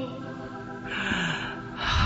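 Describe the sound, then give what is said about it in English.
A deep breath drawn in during a faith-healing prayer, heard as two swells of rushing air, one in the middle and one at the end, over a steady background hum. “Now breathe again.”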